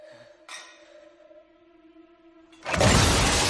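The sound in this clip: A pile of treasure objects collapses and buries someone: a loud, dense clattering crash erupts suddenly after sustained tonal sounds and keeps rolling until the end.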